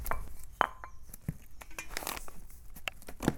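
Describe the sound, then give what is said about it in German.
Herb leaves, stripped from their stems, are cut with a ceramic knife. Only a few faint, irregular knife taps and clicks come through over a quiet background. “Und dann schneide ich es anschließend mit einem Keramikmesser klein. Das können wir jetzt gleich mal machen.”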